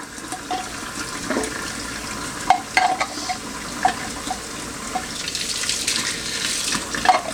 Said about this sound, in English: Alright, so we can kind of just get that rinsed off there.